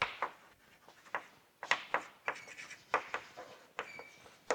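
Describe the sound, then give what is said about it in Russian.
Pen strokes as someone writes the word "conflict" by hand, heard as many quick, faint scratchy strokes in an irregular rhythm with brief pauses between groups. “Если предполагается, что в системе будет существовать, напишу слово «конфликт»”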